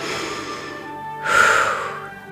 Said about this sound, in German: Und ein letztes Mal einatmen und wieder ausatmen.